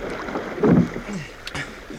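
A rowing crew pulling on the water, with splashing oars and rushing water under steady wind noise, one louder splash standing out early and a few softer strokes after.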